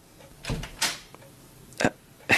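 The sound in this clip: A bedroom door being opened by a parent checking on a child, heard as a few brief, faint knocks and scrapes separated by quiet gaps.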